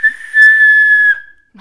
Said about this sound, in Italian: non avevo un fischietto migliore se non questo qui che ho comprato quando sono stata a Matera